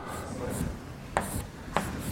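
Faint handwriting while sketching a matrix in row echelon form: soft, uneven pen scratches running throughout, broken by two sharp taps.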